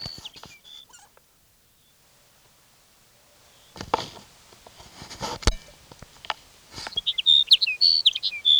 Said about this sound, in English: Here's sage sparrow number one for the day.